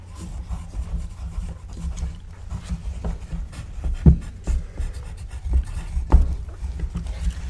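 Hand writing on paper: a pen scratching in soft, continuous strokes, with a few slightly firmer taps and scrapes standing out over the quiet, rustling texture.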